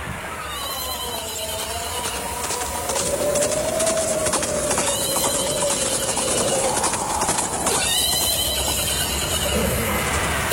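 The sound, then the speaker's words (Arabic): Two horses approaching produce a steady, busy clatter of hooves that runs throughout, with thin high whistling tones drifting above it. “يابا في اثنين على خيول جايين علينا.”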